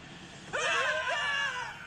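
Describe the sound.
Little demons scream as they flee in a cave: a sudden burst of shrill, overlapping screams from several voices that starts abruptly and holds for over a second before easing off.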